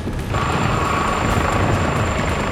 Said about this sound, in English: Up above, the three Blackhawks track the high-speed train with their searchlights.